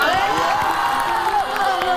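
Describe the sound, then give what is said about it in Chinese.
A studio audience cheers and claps to welcome the second chef onto a cooking show, a loud, sustained crowd noise with whoops and shouts mixed into the clapping. “我们掌声有请第二位大厨。”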